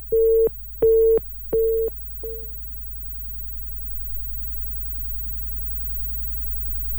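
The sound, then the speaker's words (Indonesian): Busy tone on a landline after the call is cut off: three steady, mid-pitched beeps and a short fourth one, then a low, continuous hum. “Baik, terputus kembali ya landline-nya.”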